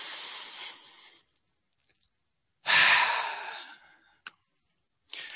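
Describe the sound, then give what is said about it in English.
Deep breathing: a long, airy breath, a pause, then a stronger breath that swells and slowly trails off, followed by a short click and the start of another breath, with near silence between them. “And I'd like for all of us just to take a deep breath for a second.”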